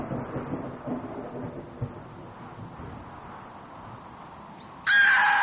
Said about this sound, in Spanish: El viento sur se había tornado en una fría brisa que, junto a los truenos que comenzaban a escucharse en la lejanía, auguraban una tormenta inminente.